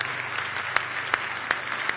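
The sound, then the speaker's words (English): An audience at a morning church service claps hands in praise, a moderate, continuous wash of clapping. A few sharper individual claps pop out at irregular moments. “Give the Lord a big hand clap of praise if you love Him today.”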